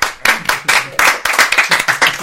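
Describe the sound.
Hand clapping as someone tries to start a round of applause: many quick, uneven claps in loud bursts with no talk.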